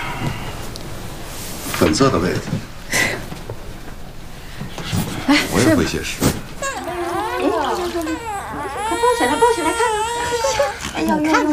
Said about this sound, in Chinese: 哦，好了好了。 哎呦，又哭，哎呦。